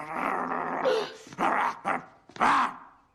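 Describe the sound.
A voice imitates a growling rabid dog: a long snarling growl followed by three shorter, loud barking bursts separated by brief pauses.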